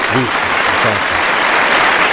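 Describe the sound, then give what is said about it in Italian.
Sustained applause from an audience in tribute to a late 1960s singer, a dense, even patter of clapping throughout, with a voice briefly audible at the start. “Doveroso l'applauso”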